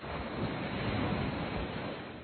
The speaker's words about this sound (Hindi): ऐसा महसूस करेंगे कि आप एक सागर के किनारे बैठे हो, तो बहुत शांति से सागर की लहरों को देखो, महसूस करो